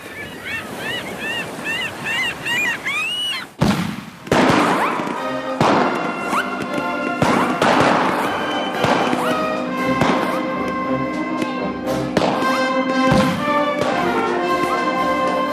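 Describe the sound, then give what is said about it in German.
A boat explodes: a sudden sharp blast, then a run of crackling bursts and heavy thuds over a dense, continuous roar that stays loud to the end. “Mit einem Mal explodierte das Boot.”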